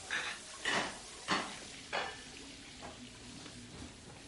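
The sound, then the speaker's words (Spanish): Dishes are cleared up in a kitchen: a few faint clinks and clatters of crockery, about four distinct knocks early on, then softer, sparser rattles. “Mark y Sophie recogen la cocina.”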